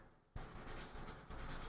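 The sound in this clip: Pencil scratching on paper while someone draws a portrait, a steady, continuous dry rasp that starts suddenly and runs unbroken, swelling slightly toward the end.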